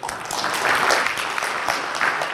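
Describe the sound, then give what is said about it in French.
Audience applause welcomes a guest at a Collège de France lecture: a brief burst of dense, crackling hand-clapping that holds at an even level from start to end. “Donc, merci de l'applaudir pour lui donner la bienvenue.”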